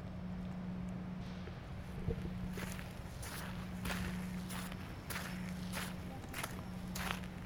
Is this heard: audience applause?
no